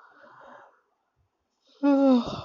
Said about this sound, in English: I was controlling this yawn actually from last 5 minutes.